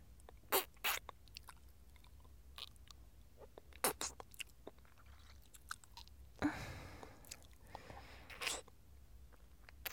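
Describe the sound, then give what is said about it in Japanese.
Soft-serve ice cream being eaten close up: faint, wet mouth clicks and smacks scattered irregularly, with a longer breathy burst midway, and no talk. “こんなにエッチな味のソフトクリーム初めて食べる。”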